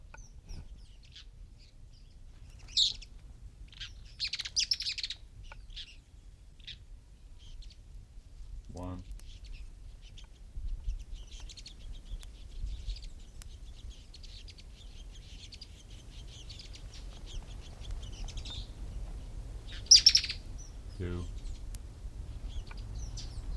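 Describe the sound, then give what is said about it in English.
Mouse-colored tyrannulet calls from a pair of birds feeding two young: a few brief, faint, high chirps scattered over a quiet, low background hum, with long gaps between them. “Phaeomyos murina.”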